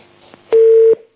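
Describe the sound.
A telephone tone after a dropped call: one loud, steady mid-pitched beep lasting under half a second, after faint line noise, then silence.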